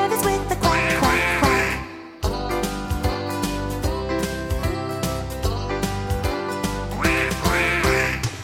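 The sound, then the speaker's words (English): Duck-like quacks over bouncy children's music, with bright nasal bursts at the start and end above a steady, beat-driven accompaniment. “He led the others with the quack, quack, quack.”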